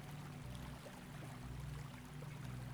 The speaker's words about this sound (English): take a moment to give thanks to the waterfall for its assistance